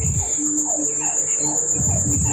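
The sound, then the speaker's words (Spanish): Frogs croak in chorus, short calls repeating in quick succession over a constant high, shrill trill that runs the whole time. “El concierto de las ranas.”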